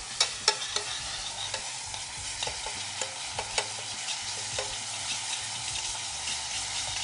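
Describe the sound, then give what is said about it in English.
Hot syrup with sweet potato purée being stirred in a pot: faint, irregular scrapes and clicks of the spoon over a low simmering sizzle, with a few sharper knocks near the start. “So I'm gonna put that into my syrup. Mix it around.”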